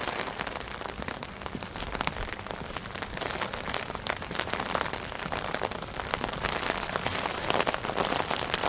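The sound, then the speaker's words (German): Steady night rain falls by a harbour, a dense, continuous crackle and patter of drops ticking and clattering on surfaces, even in loudness throughout with no voices. “Es regnet, Sie hören nur das Tropfen und Klappern”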